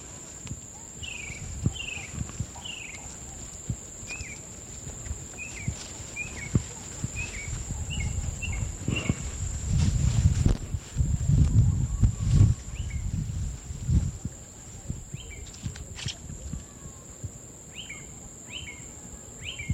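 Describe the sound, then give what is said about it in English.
Footsteps of people walking outdoors toward a tree, many soft, regular steps beneath scattered bird chirps and a constant thin high whine. “We're walking along.”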